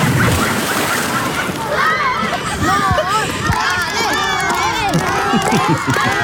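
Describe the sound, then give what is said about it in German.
Schoolchildren cheering at the edge of a swimming pool, loud and continuous, with high shouts and whoops over splashing water. “Und das Tolle war, es hat wirklich Spaß gemacht, weil im Ende stand ein ganzer Schulhort mit am Beckenrand, um dich anzufeuern.”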